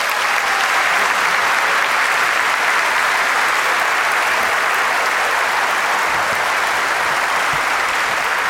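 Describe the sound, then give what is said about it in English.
Audience applause rings out in a church sanctuary in South Florida, welcoming Dr. Voddie Baucham to speak. Dense, steady clapping holds at an even level for the whole stretch, loud and continuous, with no voices over it. “But let's give a warm South Florida welcome to Dr. Voddie Baucham.”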